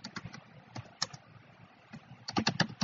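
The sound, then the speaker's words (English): Keys clatter on a computer keyboard in quiet, irregular clicks and short runs, ending in a quicker, denser burst of typing. “And I'll put this on the chat room for you. If I can type here and”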